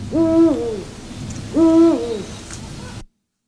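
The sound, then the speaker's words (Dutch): A male Eurasian eagle owl gives a territorial call of two deep, resonant hoots, evenly spaced and clear, with no other sounds. “Dat zijn mannen oehoes. Ja, die klinkt ook wel iets steviger eigenlijk. Oehoe. Ja, oeh. Ja, oeh. En weer inderdaad, hier ben ik... Ja, dat is een territoriale roep.”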